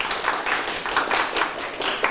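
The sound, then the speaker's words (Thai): Classmates clap for a correct answer during a vocabulary quiz, a scattered and uneven patter of hands that holds at moderate loudness for about two seconds, with small swells and no talk over it. “ทันชนกใช่ไหมครับตอบถูกปรบมือให้เพื่อนครับ”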